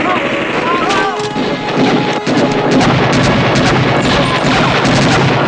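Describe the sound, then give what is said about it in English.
Gunfire from a gun with a silencer, exaggeratedly loud, cracks out in a dense, sustained barrage of overlapping shots and booms, with no pause between them. “That's a very loud gun with a silencer. Yeah. Let's get out of here. Like, I know silencers aren't fully silent, but it's very exaggerated”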